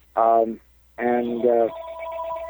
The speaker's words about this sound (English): I've just got to get rid of this phone call.